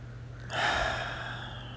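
A slow exhale during a guided breathing meditation: one long, soft rush of breath that starts suddenly and tapers gradually, over a steady low hum.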